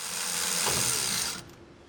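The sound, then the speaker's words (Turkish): Ratcheting clicks from a wrench as spark plugs are removed from an engine, a brief, steady, fairly loud run of mechanical clicking that stops abruptly and leaves faint quiet. “Tamam, o halde bujilatörleri motordan çıkaralım. Hadi bakalım.”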